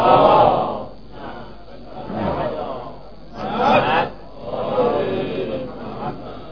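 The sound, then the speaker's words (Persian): An audience recites salawat together, many voices chanting in unison. The sound comes in a few swelling waves that rise and ebb. “نثار ارواح گذشتگان و شهدا. صلواتی مرحمت کنید.”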